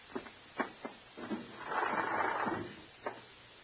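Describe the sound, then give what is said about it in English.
A window being opened gives a wooden scrape and slide, with a few sharp knocks and rattles before and after a longer rough rubbing swell in the middle. “Go ahead, open the window.”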